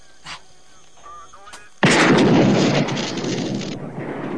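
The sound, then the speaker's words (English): A single loud gunshot is fired at a police radio: a sharp, sudden blast that cuts in after quieter moments of faint voices, then a sustained noisy roar that slowly decays. “Shoot the radio.”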